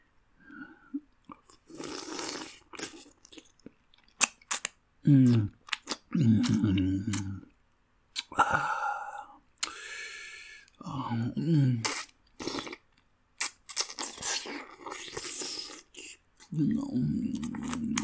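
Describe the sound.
Crunching and chewing of fruit: many crisp, loud bites and chewing bursts come in irregular clusters, separated by short quiet gaps.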